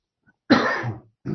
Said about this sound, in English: I apologize for the coughing there.